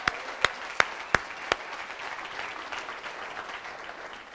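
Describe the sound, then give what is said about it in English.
An audience at a Sunday gathering applauds a volunteer who serves coffee: five sharp, evenly spaced claps open it, then a softer, diffuse spatter of crowd clapping continues to the end. “So would you guys give Marv a hand, even though he probably can't hear you this morning?”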